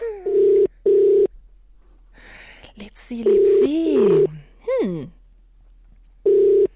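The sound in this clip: Telephone call being placed: dialing tones, then steady, repeating ringback tones that come in loud, even bursts, with a brief stretch of voice sounds between them.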